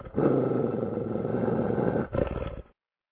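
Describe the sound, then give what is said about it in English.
A dog gives a deep, rough growling roar: one long sustained burst, then a brief dip and a shorter second burst, loud throughout before cutting off abruptly into silence. “somebody get that dog out of here.”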